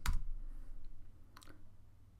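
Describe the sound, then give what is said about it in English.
Keys clicking on a computer keyboard as a command is typed: a few crisp taps, with a sharp burst at the start and a quick pair later, and near silence between them. “So let's type yo and ASP.NET generator name.”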